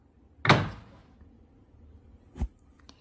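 A door closes with a firm thud, followed a couple of seconds later by a second, lighter thump, with near silence between and no voices.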